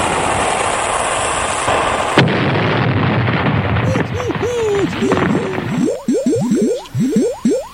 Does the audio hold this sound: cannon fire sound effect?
yes